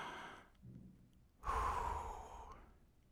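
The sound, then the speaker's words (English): A deep breath drawn in softly and then let out in a long, audible sigh, quiet and heard alone with no talking. “And then just take another breath with me.”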